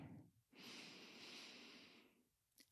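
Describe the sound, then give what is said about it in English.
A single long, deep breath is drawn in as a soft, airy rush lasting about one and a half seconds. It is quiet and alone, with a brief breathy sound just before it. “I just want to like take a deep breath in for a moment.”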